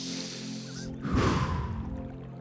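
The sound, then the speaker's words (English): A deep breath drawn in a single long, breathy rush about a second in, loud and airy with a low rumble, then trailing off into quiet; no talking alongside. “Big breath.”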